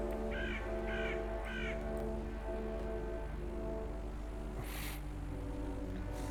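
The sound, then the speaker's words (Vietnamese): A crow caws three times behind a house. The harsh, rasping calls rise clearly above a steady, low droning background. “Đâu biết rằng từ đằng sau ngôi nhà kia vang lên một tiếng quạ kêu lạnh lót.”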